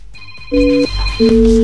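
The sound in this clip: A telephone rings out while calling a contestant on a guessing game show, with two long, steady double-tone rings separated by a short gap over a faint constant high tone.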